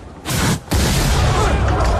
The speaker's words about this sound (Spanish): ¿Qué ha sido eso? ¿Quién ha disparado?